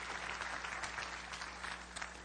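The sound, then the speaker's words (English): Church audience applauding a guest at a morning service, a soft, steady patter of many hands over a low hum. “Would you give her a great hand this morning? Would you do that?”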